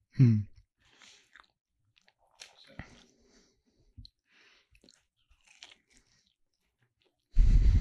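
A person chewing and biting into a Crunchwrap, with a loud crunchy bite at the start, scattered soft crunches and mouth sounds through the middle, and another loud burst of crunching at the end; no one speaks.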